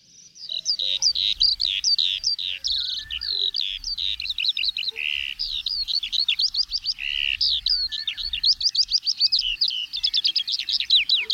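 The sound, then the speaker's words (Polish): A songbird sings at the edge of a field and forest, pouring out rapid, high-pitched trills and chirping phrases almost without pause. The song is clear and fairly loud above a faint low rumble. “Chotyłów, bo to tam takie odgłosy widzieliśmy i słyszeliśmy, tak, bo było widać również tego śpiewaka, bo znajdowaliśmy się tak na granicy pola i lasu”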